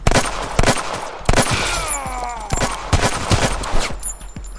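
Video game gunshots: sharp, loud shots fired in quick clusters, separated by short lulls, repeating across the moment.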